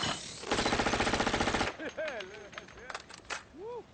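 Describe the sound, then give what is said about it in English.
Gunfire while shooting at targets: a fast, sustained string of sharp cracks lasting about a second, followed by quieter warbling, whistling sounds and a few scattered clicks. “What's it look like we're doing? We're shooting things. Pull!”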